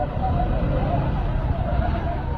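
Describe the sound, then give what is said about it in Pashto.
A steady, low engine rumble from a car stuck on a damaged road to Nesh district in Kandahar as people try to get it out. The droning noise holds evenly throughout, with indistinct voices mixed in. “د کندهار د نیش ولسوالۍ ته پر دغه غزیدلې لار خلک د هغه موټر د رایستلو په هڅه کې دي چې د لارې د خرابوالي له امله په یوه منده کې بند پاتې دي.”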